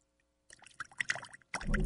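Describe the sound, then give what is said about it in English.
Water spilling from a water cooler during a prank game: after a brief silence come quick splashing, gurgling bursts, ending in a louder, fuller gush. “All right, we've got water all over the place.”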